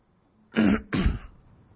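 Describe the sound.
Someone clears their throat twice in quick succession, two rough, low guttural rasps, fairly loud and alone over a faint background.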